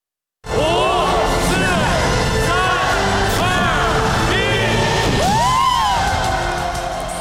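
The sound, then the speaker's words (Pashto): Crowd shouting and cheering in Beijing to welcome New Year 2019. It is loud and continuous, with many rising and falling whoops and yells over a dense mass of voices. “دا تاسې په پیکینګ کې د خلکو نارې واورېدي چې د 2019 میلادي کال د جنوري د اولې نیټه د رابرېدو لپاره یې بیګه خوشحالي کوله.”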